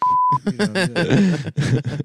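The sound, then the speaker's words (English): A censor bleep, one short pure tone about a third of a second long, followed at once by people talking. “Beep.”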